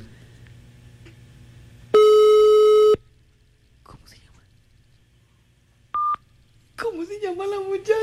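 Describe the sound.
Telephone busy tone after a call hangs up: a loud, steady one-second tone, a quieter short beep a few seconds later, then a voice speaking at the end.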